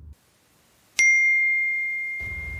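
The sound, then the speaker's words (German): A single bright phone ding for an incoming text message strikes suddenly and rings out as a clear, sustained tone that slowly fades, with a brief low rumble before and after. “bekommt eine Nachricht von einer unbekannten Nummer”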